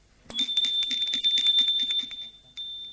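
A doorbell rings in the evening at a home, with a bright, rapidly pulsing high-pitched tone lasting about two seconds, then a short second ring.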